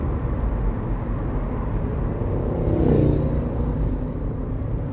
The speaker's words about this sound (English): You can hear all the often the birds singing. And the different cars going past.